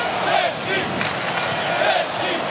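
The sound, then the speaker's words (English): Mexican football fans fill a stadium with a steady, loud roar of massed voices during a match against Czechia. Shouts and whistles swell briefly above the constant wash of crowd noise. “But the noise being generated by the Mexican fans.”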